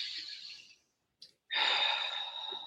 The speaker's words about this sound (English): Huge deep breath in and out.